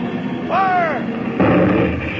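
A deck gun fires aboard a ship, giving loud roaring blasts in quick succession over a constant wash of battle noise.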